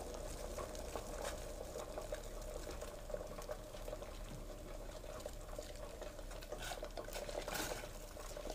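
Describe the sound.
An ingredient cooks gently in a pan over lowered heat, giving a faint, steady sizzle and bubbling hiss that continues throughout, with small crackles and ticks and no talk.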